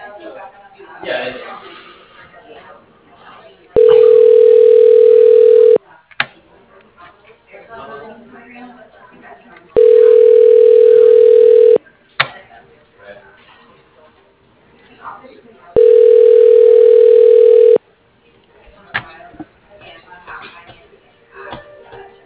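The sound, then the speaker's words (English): Telephone line during a call transfer to voicemail: three steady, evenly spaced ringing tones, each lasting about two seconds, separated by faint, muffled line noise and rustling. “So I'll try putting it through to Dave. I know he's in a meeting, but you'll get his voicemail.”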